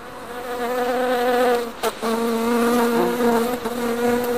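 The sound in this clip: Honeybees buzz at an urban backyard hive in Los Angeles, a loud, steady, droning hum with layered tones and a brief dip partway through.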